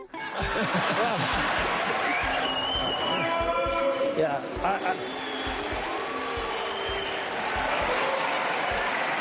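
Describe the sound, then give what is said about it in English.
Crowds at Republican presidential debates cheer, applaud and laugh in a loud, continuous mix, with voices rising through the noise. “A Broadway show, an audience at the Oscars you're listening to? No. What you're hearing is a little mix of crowds at some of the many GOP presidential debates this year.”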